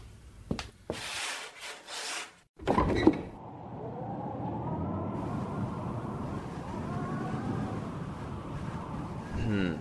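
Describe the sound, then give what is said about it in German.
Windows being opened, with a few scraping, rubbing bursts of wood over the first three seconds, followed by a long, steady creaking rasp that lasts to the end. “öffnen Sie die Fenster”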